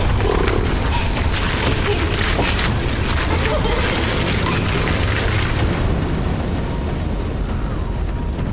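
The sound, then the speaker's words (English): A machine's wheels jammed and crushed by tree roots make a loud, sustained crashing rumble. The dense, steady noise runs throughout, and its harsh high hiss thins out near the end. “The machine. The roots have jammed its wheels and crushed it.”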